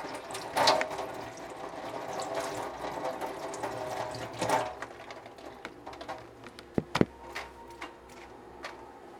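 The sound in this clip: Tap water runs quietly over a salmon fillet being rinsed, a soft steady flow with a few louder splashes and sharp clicks toward the end.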